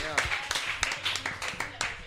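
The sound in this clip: Sparse hand clapping from a few people greets a guest, with short sharp claps at an uneven pace and a voice talking over them.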